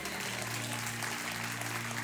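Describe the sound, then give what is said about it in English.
An audience claps steadily throughout, a dense, even wash of applause at moderate level, with a low steady hum beneath. “I'm so glad you're clapping, because you're going to have to keep clapping this evening.”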